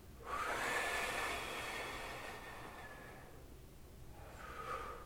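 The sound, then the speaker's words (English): Breath blown out slowly, like blowing out a candle: one long, breathy hiss of an exhale with a faint whistling edge, then a quieter pause and a shorter second puff of breath, heard alone. “With your eyes closed. Blowing out like a candle each line.”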